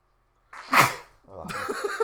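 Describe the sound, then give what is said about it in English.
A single sharp sneeze bursts out loudly after a moment of near silence and then fades, followed by lower rustling sounds. “I'm probably about to sneeze.”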